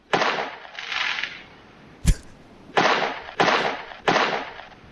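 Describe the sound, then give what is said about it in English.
Fireworks go off in a series of hissing, crackling bursts with one sharp crack among them. The bursts are moderately loud and separated by short pauses. “Sounds like fireworks. Yeah, well done.”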